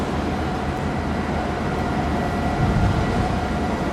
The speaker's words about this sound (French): Le jour se lève à Yongtian, sur le terminal des conteneurs, au bout du quai.